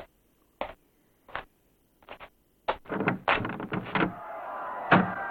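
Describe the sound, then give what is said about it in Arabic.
A small window hatch being unlatched and opened: a few sharp, separate wooden clacks, then a longer, denser run of rattling and scraping that keeps going to the end. “افتح الكوة وانظر إلى الخارج”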